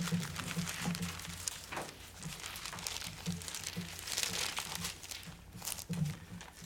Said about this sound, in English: Turn with me, if you would, to John 6:44.